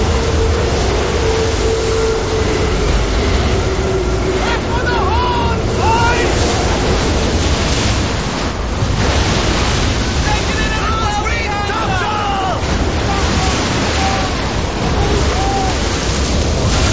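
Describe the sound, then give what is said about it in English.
Huge ocean waves batter a ship and wash over its deck in a loud, continuous roar of surging water and wind that stays heavy throughout. “The ship is relentlessly battered by huge waves washing over the deck.”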